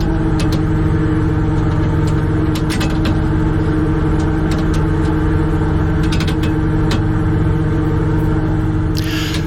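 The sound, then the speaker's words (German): Steady low engine drone from a shrimp cutter in the Wadden Sea off Hallig Langeneß, North Sea, as the nets are put out. A few brief mechanical clicks and knocks sound over the constant loud hum. “Wir sind schon mitten im Wattenmeer auf dem Krabbenkutter vor der Hallig Langeneß und jetzt werden die Netze ausgebracht.”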